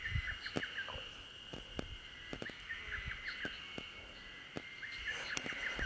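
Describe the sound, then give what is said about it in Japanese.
A lesser cuckoo gives a clumsy, halting song of short chattering notes. The notes are faint against a quiet background dotted with sharp clicks. “なんか下手くそなホトトギス。”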